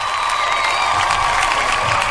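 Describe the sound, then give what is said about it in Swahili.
Applause and cheering congratulate a winning contestant, a short, even burst of crowd clapping and cheers held at a steady level. “Congratulations, acha nikupigie makofi.”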